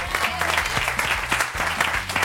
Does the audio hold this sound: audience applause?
yes